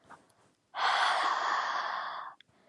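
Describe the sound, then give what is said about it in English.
A single long, breathy exhalation is blown out close to someone, steady and fairly loud for under two seconds before it cuts off. Faint small mouth sounds come before and after it. “Now let me lean in close so you get a nice good whiff of my breath.”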